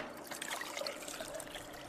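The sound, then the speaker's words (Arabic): Water poured during document restoration work, a faint, continuous trickle that runs evenly for about two seconds. “حط الورقة في الضاغط ما عليك أمر. طاولة البودرة رقم 3. تفضل. زيد الماء شوي.”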